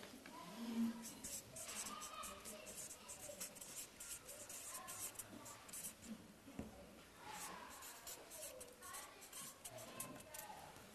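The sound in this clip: A pen scratches across paper as someone writes a short phrase, a steady run of soft, scratchy strokes with brief pauses, quiet throughout.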